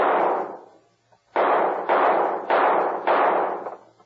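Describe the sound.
Toy guns fire at the knobs on top of a street sign: several sharp, evenly paced cracks, each ringing out in a brief decaying tail, with no voices between them.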